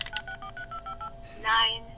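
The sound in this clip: A speech device held to a telephone mouthpiece dials a phone number with a quick run of touch-tone beeps in an even rhythm, followed by a short louder burst of voice.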